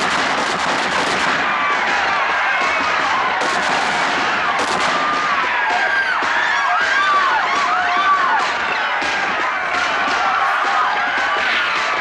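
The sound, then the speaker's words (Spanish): Soldiers fire guns into a group of men in dense, continuous crackling volleys with no clear gaps, mixed with the cries of a crowd. “¡Fuego! Los soldados disparan a ese grupo.”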